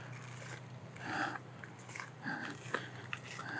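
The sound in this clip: Footsteps crunching on gravel along a tree-lined path to a monastery church: a few quiet, irregular crunches at walking pace.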